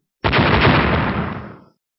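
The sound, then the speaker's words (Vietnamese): An explosion sound effect marks a clash of two blasts of magical light in a fantasy battle. A single sudden, loud burst roars for about a second and a half, then dies away. “Một tiếng nổ đùng kịch liệt vang lên, hai đạo hào quang cùng lúc chấn động, nổ lên”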